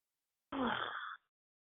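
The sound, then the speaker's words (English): A single deep breath, drawn long and breathy with a faint moan-like tone, lasts under a second and stands alone against silence. “All right, I heard somebody take a really deep breath.”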